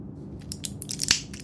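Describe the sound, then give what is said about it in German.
A tablet is pushed out of a blister pack: several small, crisp foil crinkles and crackles, then one louder snap near the end, all fairly faint over a low background hum. “Er drückte noch eine weitere Tablette aus dem Blister.”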